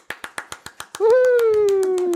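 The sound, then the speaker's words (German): One person claps alone about seven times in a quick, steady rhythm, then a sustained pitched tone holds steady and slowly sinks lower. “Also, wenn, dann kommt nur der Applaus von mir.”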